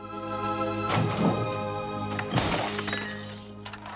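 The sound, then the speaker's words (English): Glass shattering as a fist smashes through a pane in a locked back door: two bright, crashing bursts of breaking glass over a sustained musical tone. “He smashes his fist through one of the panes of glass.”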